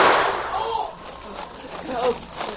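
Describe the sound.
A gunshot sound effect in a radio drama gives a sharp burst at the start that fades quickly, followed by speaking voices.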